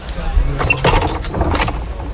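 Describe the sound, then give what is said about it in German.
A fixed wall-mounted wine bottle cork remover works with a few mechanical clunks and rattles, short metallic knocks and scrapes spread through about two seconds. “Das Geräusch ist ein fest installierter Weinflaschenentkorker.”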